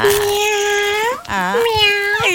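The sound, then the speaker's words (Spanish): Cat meowing: a few drawn-out, tonal meows with bending pitch, loud and clear, with short breaks between calls. “El mes de los gatos, aquí se reporta la gatita, la Bechito, Bechito.”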